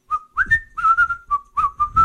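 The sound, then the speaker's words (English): A person whistles a lively tune in a string of clear, steady notes, some held and some gliding briefly, with short breaks between phrases and no talking. “sip my mead and stroll over to Rick whistling”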